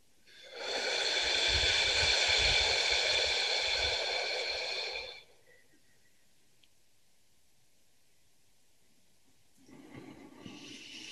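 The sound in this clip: A single long, deep exhaling breath, a loud, steady rush of air lasting about four seconds. It stops abruptly into near silence, and a fainter breath begins near the end.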